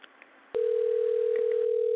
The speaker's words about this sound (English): Should be dialing soon. And hopefully we will be talking to him.